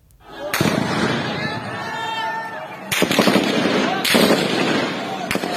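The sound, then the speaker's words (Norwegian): Gunfire from soldiers shooting at demonstrators in the city of Aden in southern Yemen: a few sharp, loud cracks break through a dense, continuous roar of noise. “Det er soldater som skyter mot demonstranter i byen Aden sør i Jemen.”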